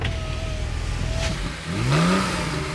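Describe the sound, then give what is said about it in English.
Engine of a Porsche 911 Carrera humming steadily, then swelling into a brief rising rev near the end, with no talk. “A little far for my 10-speed, but child's play for this. The Porsche 911 Carrera.”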